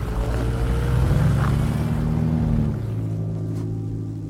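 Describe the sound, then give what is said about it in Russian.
Cars roll into the grounds of a sanatorium through opened gates, their engines giving a steady low rumble that shifts slightly in pitch and then eases off a little toward the end. “Машины въезжают на территорию.”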